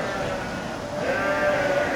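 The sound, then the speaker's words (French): Ewes bleat insistently on a sheep farm as they wait for feed to be put out, their overlapping calls forming a continuous, urgent chorus that grows louder and more intense in the second half. “Voilà, les bêlements qui se font de plus en plus pressants, de plus en plus intenses.”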